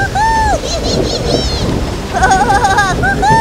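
A thunderstorm with rain brings a low, broad rumble and rushing noise under wavering, whistling tones that sweep up and down, fairly loud and continuous throughout.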